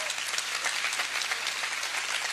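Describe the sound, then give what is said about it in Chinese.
Applause from a church audience cheering young people's prayer groups: a dense, steady patter of many hands clapping at a fairly loud level, with no pause. “给他们掌声呀！”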